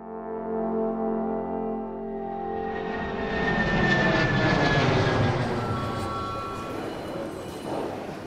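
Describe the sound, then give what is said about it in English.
An airplane at a busy airport: a steady, high engine whine swells into a broad, loud roar that peaks midway, then slowly eases while still rumbling. “Home sweet home, and the airport is just as busy as ever.”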